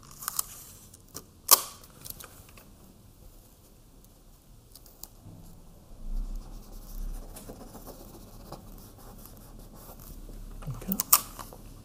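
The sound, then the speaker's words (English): Adhesive tape is pulled and pressed down to stick paper houses in place, giving faint, sporadic crackles and rustles broken by a couple of sharper snaps. “I should have brought other tape. Oh, I do have other tape. Let's tape these down. That way they're not sticking up.”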